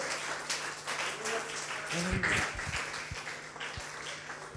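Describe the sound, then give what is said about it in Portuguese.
Audience in a church applauds: soft, scattered clapping that swells in the middle, with a few voices briefly rising above it. “dê um aplauso bem forte ao Senhor Jesus, aleluia, glória a Deus, aleluia.”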